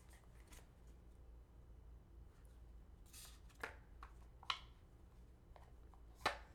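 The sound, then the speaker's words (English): Question cards being picked up and handled: quiet rustles and soft slides, with a few sharper taps scattered through. “I keep picking up that same card that you're not going to want to answer.”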